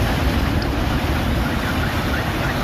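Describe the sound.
Huge storm waves on the sea at Yumurtalık after a downpour and gale, a steady, loud, roaring rush of surf and wind with heavy low rumble and no clear breaks.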